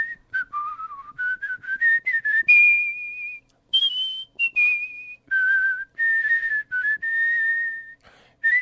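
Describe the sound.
A world-champion whistler performs the American national anthem, a clear, pure solo melody of held and sliding notes separated by short breaks between phrases.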